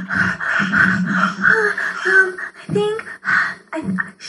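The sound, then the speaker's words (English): A voice imitates heavy, frightened breathing: a run of loud, raspy gasps, pants and snorting inhales with short breaks between them. “You would, breathe a lot,”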